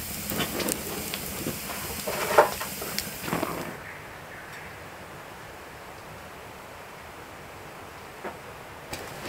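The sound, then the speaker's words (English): Venison sausages sizzle in a pan for breakfast with a steady, bright hiss and scattered crackles. The hiss drops sharply to a quieter, softer level partway through. “For brekkie, I got a couple of venison sausages.”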